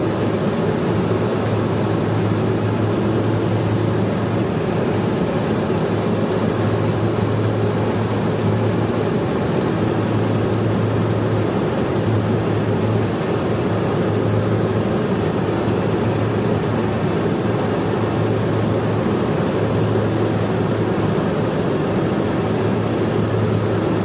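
An aircraft engine drones steadily and loudly for the whole stretch, a dense, even roar with a low propeller hum underneath and no clear rise or fall.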